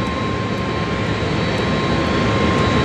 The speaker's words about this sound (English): flight 965 is cleared for takeoff. 27 right. Fly the runway heading. Clear for takeoff.